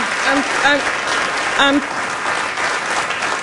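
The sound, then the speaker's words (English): A standing ovation for a performer dressed in gold: sustained, loud audience applause that stays even throughout, with brief voices calling out over the clapping. “She got a standing ovation and said this to the audience.”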